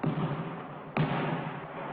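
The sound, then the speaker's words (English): A basketball is dribbled back to the shooting line, giving two dull, thudding bounces about a second apart. Both sit over a steady soft hiss. “Retrieving the ball, he dribbles it back to the line.”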